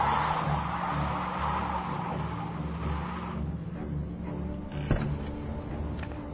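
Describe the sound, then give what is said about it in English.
A car is driven fast inside a parking garage, its engine giving a loud, steady roar that runs throughout, with one short sharp burst near the end. “What the hell are you doing out in the parking garage? You were driving like a maniac.”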